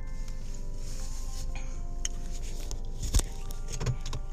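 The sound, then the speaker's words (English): A car driving on the road gives a steady low engine and road rumble throughout, with faint clicks and one brief thump near the end. “I'm driving to work”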